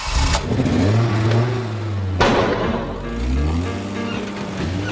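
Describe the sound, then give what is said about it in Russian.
A car engine rumbles and revs as the car jerks into motion, a steady low drone rising and falling, with a sharp louder burst partway through before the engine settles back into an uneven revving. “Зажигаются фары, и машина рывками трогается с места.”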